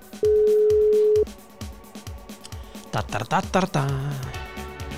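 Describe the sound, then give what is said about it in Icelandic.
A telephone line tone sounds as one steady, level beep for about a second while someone places a call, followed by people talking; no separate ringing is distinct. “Ég ætla að fara í síma Og ég ætla að hringja”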